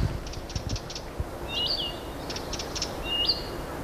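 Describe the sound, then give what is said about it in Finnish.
A marsh warbler calls in dense lakeside thicket of willow, alder and birch, with a nightingale and fieldfares behind it. Faint bursts of high chirps give way to a few sharp whistled notes over a low steady rumble. “Ja taustalla kuuluu satakieli, räkättirastaita. Viitakerttunen vaihto vähän paikkaa. Viitakerttunen on tämä, joka viheltää.”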